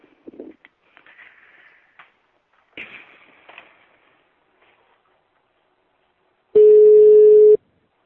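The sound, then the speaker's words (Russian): A telephone ringback tone sounds as a call is placed: one steady, loud, buzzing tone lasting about a second, after a few faint, scattered clicks and rustles. “Конечно, 2 секунды, сейчас набираю его.”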